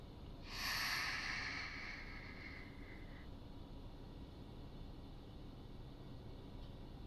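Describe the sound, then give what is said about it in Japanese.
A single deep, slow inhalation, drawn in as fully as possible: a soft, airy rush that swells for about a second and then tapers away over a steady low hum. “大きく息を吸えるだけ深く吸って、”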